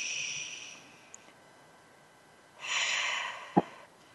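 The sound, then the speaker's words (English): Deep belly breathing, in through the nose and out through the mouth: two soft, airy rushes of breath separated by a quiet gap, the second slightly fuller and ending with a brief, sharp thump. “breathing in through the nose, expanding your belly, so it's a belly breath, and then out through your mouth like through a straw. Take one more breath.”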